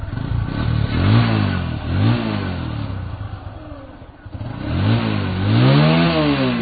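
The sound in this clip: A motorcycle engine revs repeatedly at a motorcycle repair workshop in Pathari bazaar. Its pitch climbs and falls in several strong, loud sweeps over a steady idle, with some clatter and no voices.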